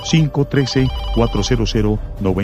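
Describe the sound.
A telephone rings with an incoming call to a radio call-in show, a ringing tone heard beneath a talking voice.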